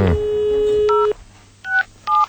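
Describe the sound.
Telephone keypad dialing tones as a call is placed: a brief voice at the start, then a steady tone followed by three short, bright two-note beeps separated by quiet gaps.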